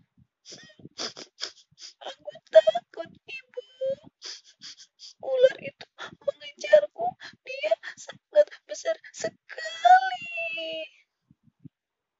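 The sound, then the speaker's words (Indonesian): A child cries in broken, high whimpering sobs and wails that come in short bursts with brief pauses between them, growing louder toward the end before trailing off. “Ia menangis dan memeluk ibunya.”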